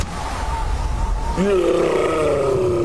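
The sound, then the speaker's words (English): A deep, growling monster roar, meant as a yeti inside a fridge, breaks in partway through over a steady background hum, then holds as a drawn-out, tonal bellow. “That's the sound of a Yeti in the fridge. Yeah, there's a Yeti in the fridge.”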